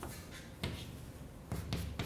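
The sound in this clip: Writing on a board during a lecture: a few faint, scratchy strokes and taps spaced unevenly over a quiet background.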